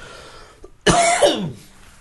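A single sharp cough from an itchy throat bursts out loudly, with a brief rough, voiced tail, after a faint throat sound just before it.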